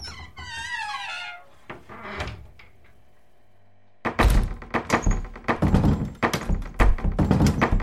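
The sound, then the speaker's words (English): A cupboard door being opened slowly: soft thunks and clunks over a quiet stretch, then a sudden loud burst of noisy, pulsing sound. “There's something inside the cupboard. Oh, God. Get behind me. Careful, Gordon. I'm going to open it slowly.”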